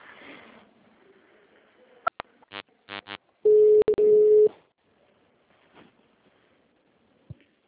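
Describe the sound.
A municipal office's automated phone menu plays its signal tone after a recorded greeting. A few quick electronic tone bursts lead into a loud, steady, one-second beep, with faint recorded speech at the start and near-silence afterward.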